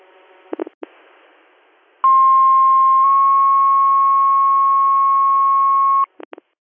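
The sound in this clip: Radio dispatch alert tones for a fire and rescue page: a few short bursts, then a long steady tone that steps to a second pitch and holds for about three seconds before brief clicks end it.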